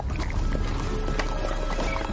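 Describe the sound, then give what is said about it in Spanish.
Hooves clatter as helmeted riders pass by on horseback in a medieval crusader-era film scene. Hoofbeats run thick and continuous, overlapping into a loud, busy trample. “Los jinetes pasan de largo junto a ellos. Todos llevan casco.”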